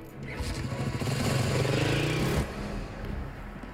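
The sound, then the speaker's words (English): A police motorbike engine roars as the bike pulls away, with a loud, steady throaty drone of layered low harmonics. It holds for about two and a half seconds, then drops off abruptly to a quieter background. “climbs onto the officer's motorbike and roars off.”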